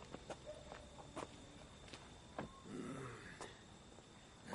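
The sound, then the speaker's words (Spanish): Footsteps of a drunk man on a garden path in a film: several faint, irregular, uneven steps with scuffing between them. “Harry camina ebrio por el sendero que recorre el jardín.”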